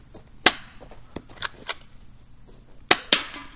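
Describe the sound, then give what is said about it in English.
Airsoft gun shots are fired during a shooting contest. There are several sharp, snapping cracks at irregular intervals, some in quick pairs, over faint background noise. “Eight more shots to go.”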